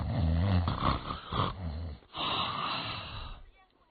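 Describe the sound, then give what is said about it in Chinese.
A storyteller imitates the snoring of a drunken man: two rough, growling snores, the first longer and harsher, the second breathier, trailing away into quiet. “可是杨林确实喝多了，这鼾声起来了。”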